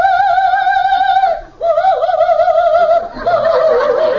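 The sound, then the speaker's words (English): A nightingale call in a comedy scene: a long, clear, warbling high tone, a brief break, then another wavering stretch that turns rougher toward the end. “your nightingale calls.”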